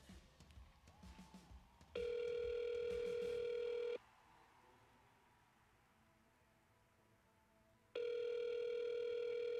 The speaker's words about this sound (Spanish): Nunca le va a sonar ocupado. Esperando a que nos contesten en Radio Lluvia.